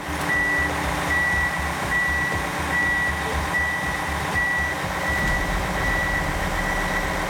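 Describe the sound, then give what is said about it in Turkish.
A Manitou telescopic loader pushing a snow vehicle sounds a regular series of high reversing beeps. The beeps repeat evenly over a loud, steady engine drone that fills the whole stretch. “Manitou ile arkadan destek vererek öne iteceğiz. Manitou teleskopik bir yükleyici. Kar aracını itmek için bu makineyi kullanacak.”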